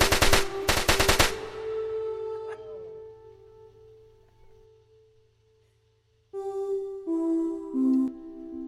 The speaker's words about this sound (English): hand me the machine gun. This shotgun's not quick enough.